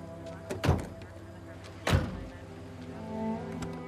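Doors are shut with two solid thuds about a second apart over a steady low hum.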